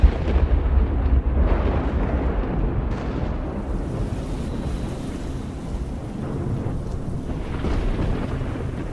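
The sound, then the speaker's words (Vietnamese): Thunder rumbles loudly beneath pouring rain. A deep, continuous roar holds steady throughout, with no voices. “Cũng vừa lúc trên bầu trời sấm sét nổi lên đùng đùng, cơn mưa bắt đầu trút xuống.”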